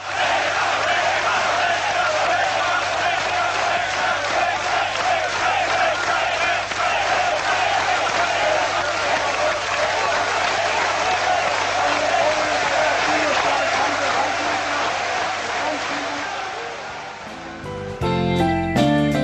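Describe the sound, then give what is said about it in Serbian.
Applause and chanting from a huge crowd of about 200,000 people lining a funeral procession route in Belgrade, a dense, loud, unbroken roar of clapping and voices that holds steady almost to the end. “200.000 ljudi u špaliru od kapele do mesta sahrane aplauzom i skandiranjem je pratilo pogrebnu povorku. Evo jednog dela tonskog snimka.”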